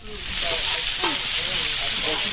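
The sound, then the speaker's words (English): Sausage sizzling on a grill inside a feed store: a steady, dense frying hiss that holds at an even level for the whole short stretch. “The smell of sizzling sausage welcomed customers as they entered the K300 feed store on Saturday.”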